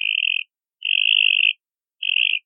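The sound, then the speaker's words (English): A mockingbird mimics the call of a Cope's gray tree frog with three high, buzzy trills at a steady pitch. The middle trill lasts longest, and clean silence separates each burst. “Here's the call of a Cope's gray tree frog. Now compare it to the mockingbird's attempt at copying it.”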